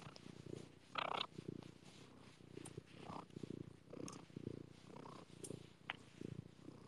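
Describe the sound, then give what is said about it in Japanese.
A cat purring, a soft, faint, rumbling purr in a steady rhythm of repeated breathing cycles, heard alone without talk. “大丈夫、ゴロゴロ言うとるわ。聞こえますか猫エンジン。”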